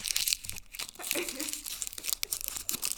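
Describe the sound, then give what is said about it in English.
Crinkling of a Reese's candy wrapper, handled close to the mic in an ASMR-style moment: a dense run of crackly, papery rustles and snaps, fairly quiet and continuous throughout. “That's her Reese's wrapper.”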